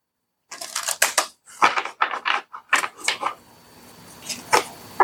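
Cards pulled from a deck during a card reading: crisp papery snaps and slaps in irregular clusters, then a quieter stretch before a few final sharp flicks.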